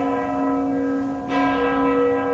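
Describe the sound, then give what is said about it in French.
Church bells ringing in Kraków: a sustained, resonant metallic hum rich in overtones, renewed by a fresh strike midway and ringing on steadily, with no talking. “Les cloches, un pigeon. On est bien à Cracovie.”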